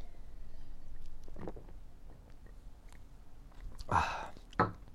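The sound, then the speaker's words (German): Sips of Sekt, a sparkling wine, come as two short, wet slurping bursts near the end, following a stretch of faint low background noise. “Ja, jetzt nehme ich erstmal wieder einen Schluck Sekt.”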